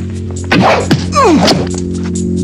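A crossbow dart is shot into a man's thigh. A quick swish is followed by a sharp whack, then a falling, whistling sweep, all over a steady low hum.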